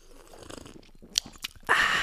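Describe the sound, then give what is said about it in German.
Close-up ASMR-style drinking sounds: a few soft, wet mouth clicks and sips. A louder, sustained rushing sound follows near the end. “So, jetzt kommt ASMR trinken.”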